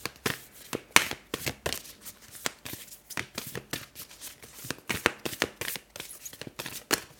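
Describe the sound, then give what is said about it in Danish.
Oracle cards being shuffled and drawn: many quick, crisp riffling snaps and soft slides of card stock follow one another in an uneven rhythm, with no talking. “så prøver jeg lige at se, om der er et orakelkort, der kommer ud til os, som vi kan få lidt støtte fra.”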